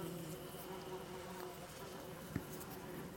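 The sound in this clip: Flies buzz in a swarm around a man's neck, a low, continuous, faint drone that holds steady throughout, with one soft tap near the end.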